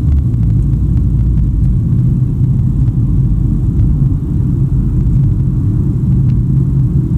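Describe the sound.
A car drives along the road with a constant, loud, low rumble of engine and tyre noise throughout, with no talking.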